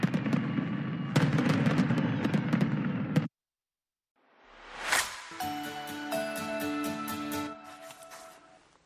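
A fireworks display at the Statue of Liberty in New York: about three seconds of dense noisy bursts, then a short silence, a rising whoosh that ends in a loud bang, and sustained crackling afterwards.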